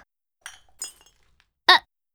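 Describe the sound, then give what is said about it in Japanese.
Broken glass pieces clink together in three short, sharp bursts with near-silence between them, the last one the loudest. “割れたガラスをそのまま手で触るから怪我をするんだよ。”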